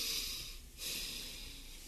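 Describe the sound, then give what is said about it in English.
A deep breath taken before a prayer in a Bible study: two quiet, breathy rushes of air split by a brief pause, with no talking. “let's just take a deep breath before the Lord.”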